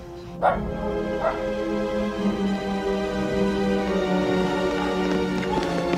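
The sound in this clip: Several dogs barking and whimpering at once, with a steady layer of whining and howling broken by a few sharp, loud barks, continuing without pause throughout.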